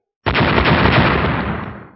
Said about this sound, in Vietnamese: Chốc lát sau, một chuỗi âm thanh nổ tung liên tiếp vang lên.